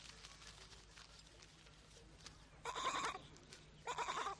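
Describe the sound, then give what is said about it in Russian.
Two short, loud bleats from a goat grazing nearby, separated by about a second of quiet background hiss, each a harsh, buzzy cry. “Пасущаяся рядом коза съедает одно.”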